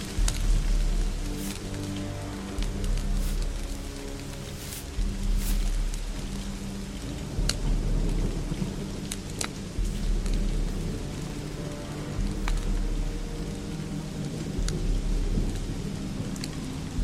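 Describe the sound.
Rain pours steadily outdoors near a campfire while low thunder rolls in several deep rumbles, the dense hiss of rain continuing loud and unbroken throughout with no voices.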